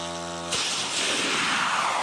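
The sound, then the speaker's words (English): A long-range Ukrainian attack drone, about four meters long with a six-meter wingspan, launching on a quiet night: a steady buzzing engine hum gives way abruptly to a loud, sustained roar that continues to the end. “This is the sound of the weapon driving Ukraine's most consequential military campaign of”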